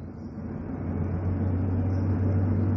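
Steady, even rumble of a car driving in Virginia on a spring day, with a low engine and road drone that holds at a constant moderate level throughout with no other sounds.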